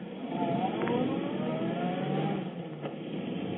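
A taxi car accelerates away, its engine revving in a steady, muffled drone with a faint rising pitch as it picks up speed.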